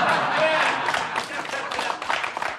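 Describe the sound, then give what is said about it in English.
Applause from a live audience in a comedy recording, dense clapping that thins and turns patchy toward the end, with voices mixed in. “Well, if it's a live audience, then they're primed to laugh at this stuff. They almost anticipate the joke, and they're already laughing. Yeah. Now, the clapping sounded authentic,”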